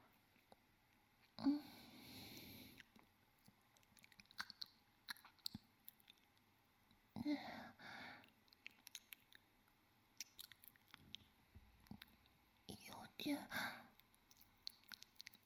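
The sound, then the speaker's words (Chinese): Faint, wet licking and mouth sounds come in a few longer bursts amid many scattered small clicks and smacks, with soft whispering around them. “那我就只舔一下哦。我试试看吧。”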